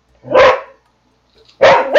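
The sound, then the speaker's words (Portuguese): Dog barking sound effect played during a tabletop fantasy role-playing session to stand in for a barking book: a couple of loud, gruff barks separated by a silent gap of about a second. “Ele catou algum livro que late? É, tem um livro latindo aqui.”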